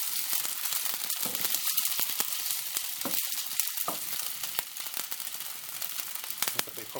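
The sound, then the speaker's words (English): Balls of food sizzle in a frying pan as they are pushed around with a wooden spoon, giving a steady, dense crackle and hiss with scattered sharper clicks and light rattles throughout. “before I put them in the frying pan, to make sure they were perfectly spherical? I don't know now. Oh well. Let's keep moving them around.”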